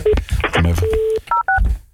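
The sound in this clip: Telephone keypad dialing tones as a call is placed to the boss: a few short electronic dual-tone beeps sounding between voices and other sound.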